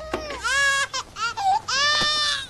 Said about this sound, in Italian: Ti cullo, piangi. Mangi, piangi. Bevi, piangi. Probabilmente vuoi solo piangere, così?